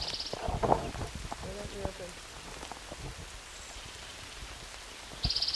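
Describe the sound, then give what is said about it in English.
Steady rain falls by a creek in June, a dense patter of drops hitting surfaces throughout, with a few sharper, louder drips standing out near the start and end. “Raining.”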